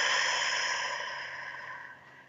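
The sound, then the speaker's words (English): A slow, deep exhale through the mouth during a guided breathing exercise: a soft, breathy whoosh that starts fairly strong and fades steadily over about two seconds, heard alone. “let's take a deep breath in through the nose, out through the mouth”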